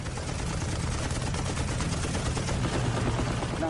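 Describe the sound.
Rapid, sustained machine-gun fire from a fighter plane's guns aimed at a low-flying enemy aircraft: a dense, unbroken rattle that stays loud and steady for the whole burst, with no talk over it.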